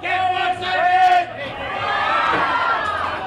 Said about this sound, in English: At the famous Pike Place Market in Seattle, you can get fish in all shapes, colors, sizes, and stripes.